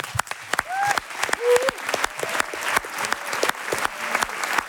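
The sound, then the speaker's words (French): Audience of about 400 applauding a comedy columnist at a live show in Marseille: scattered, irregular claps with a few whistles near the start, building into steady clapping. “Dans le doute, faites quand même une ovation à notre chroniqueur, Amzian.”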